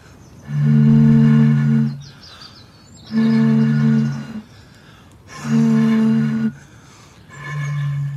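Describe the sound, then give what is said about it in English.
Two people vocally imitate a bird call with four long, steady, low droning tones separated by short pauses. The last tone is cut off at the end. “We promised to give you an actual bird sound in a minute or two, but the sound we're making is really not far off it.”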